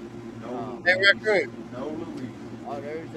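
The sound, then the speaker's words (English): A loud blower runs in the background, a steady low droning hum beneath brief bursts of a talking voice. “No, yeah, I heard a blower again. I muted him to see if he was there, but he's talking. That blower is loud.”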